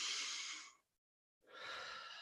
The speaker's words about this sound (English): So we'll take another deep breath in and out